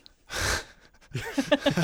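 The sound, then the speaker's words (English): A loud snort into a microphone, a short breathy nasal burst, is followed after a pause by a quick run of voiced, laugh-like bursts. “Sorry to snort in the microphone there.”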